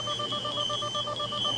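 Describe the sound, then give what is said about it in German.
Electronic alarm beeping from a trading computer, a shrill tone pulsing in rapid, even repetition with no pause for the whole clip, steady in loudness. “Das Piepen stach wie ein Messer in meinen Schädel.”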